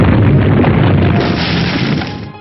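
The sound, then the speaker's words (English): Quake attack move in a turn-based video game battle, sounding as a loud, heavy rumbling boom that fills the whole clip and fades slightly near the end. “Quake, Leonidor used Quake.”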